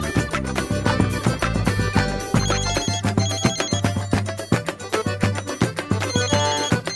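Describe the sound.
A telephone ringtone plays loud and musical, with bright repeated tonal notes over a low, thumping pulse in a steady rhythm and no voices.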